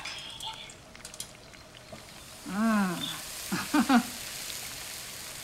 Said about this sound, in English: The tongs, I need tongs. There we go. Okay. Start cooking your meat.